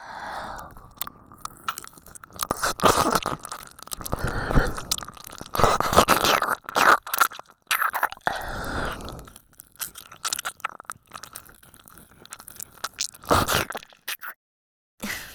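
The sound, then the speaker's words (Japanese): Wet, squishy licking and mouth sounds close to the ear, in many irregular smacking and slurping bursts of varying loudness, with a short silence near the end. “とっても下品にあなたのお耳を舐めさせていただきます。”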